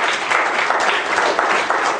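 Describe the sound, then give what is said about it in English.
A church audience applauds with dense, steady clapping that stays loud and even for a couple of seconds, without voices over it. “Give a warm round of applause.”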